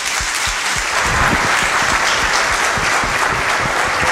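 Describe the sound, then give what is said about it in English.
Loud audience applause welcoming a guest speaker, an entertainment executive, at a talk: a dense, continuous roar of many hands clapping, steady and even from start to finish. “Let's show him your appreciation by giving him a hand and welcoming him.”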